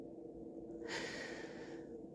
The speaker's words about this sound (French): tu m'entends beaucoup respirer aujourd'hui.